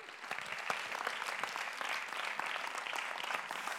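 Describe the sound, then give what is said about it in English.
An audience applauds as a speaker is welcomed onto the stage at a service. Dense, steady clapping from many hands runs for about four seconds at an even level, with no talk over it. “So let's put our hands together and welcome him onto the stage.”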